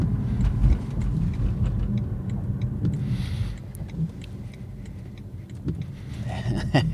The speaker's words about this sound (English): The only like perceptible noise is kind of rolling tyre noise, but there's not a lot of it.